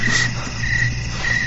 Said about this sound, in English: Crickets.